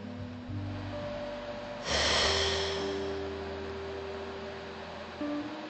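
Someone takes one deep, audible breath, a breathy rush that swells partway through and then slowly fades, over steady droning tones that continue throughout.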